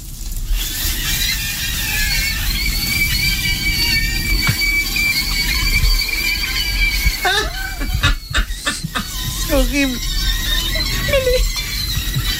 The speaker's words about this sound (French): Mais le bruit, alors ça doit être l'air qui s'échappe, oui, de la saucisse.